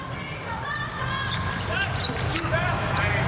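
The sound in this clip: Volleyball bounced on the court a few times before a serve in a match, dull thuds mixed into a steady crowd roar while a commentator talks.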